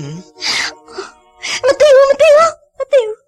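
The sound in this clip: A girl crying and wailing: loud, drawn-out, wavering high-pitched wails in several bursts, after shorter breathy sobbing sounds at the start.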